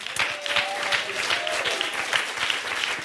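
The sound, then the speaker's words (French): An audience applauds performers, singers with a pianist, in steady, dense clapping that holds at an even level throughout with no pause. “On peut les applaudir.”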